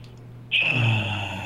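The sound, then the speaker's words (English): A deep breath is drawn in through the nose as one long, steady airy hiss with a thin whistling edge. It starts after a quiet moment and lasts about a second. “let's do it in 3, 2, 1, all the way in through the nose”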